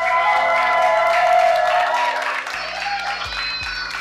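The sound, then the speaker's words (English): Audience at a live show in Sacramento, California cheering and applauding, a dense, steady wash of clapping and whoops that eases slightly toward the end. “And our audience here tonight with us here in Sacramento, California. Hey. Make some noise for yourselves.”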